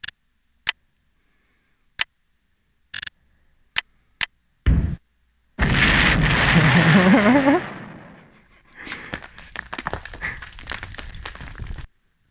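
Explosions and artillery fire from the tank video game Pocket Tanks: a few sharp isolated clicks, then a loud noisy blast with a warbling tone, followed by a long stretch of fading crackle.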